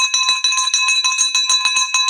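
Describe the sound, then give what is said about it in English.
A victory bell rings rapidly and repeatedly, its bright metallic strikes coming in a quick, even rhythm with a sustained ringing tone between them, loud and alone throughout. “here we have the victory bell for a huge victory”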